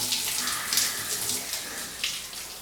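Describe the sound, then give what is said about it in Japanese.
Hot water pours in a faint, steady splashing stream with small irregular surges and no voices. “右耳からお湯中に入らないように気をつけて、”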